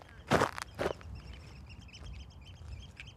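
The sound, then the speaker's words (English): Footsteps on a slightly wet causeway: two loud scuffing steps near the start, then a quieter ground hiss with bird chirps scattered over the rest. “So if we put you at this side of the causeway, how far do you think I've got to go? It's about 75, 100 metres. So I'm going to walk there. It's fairly dry. It's a little bit wet.”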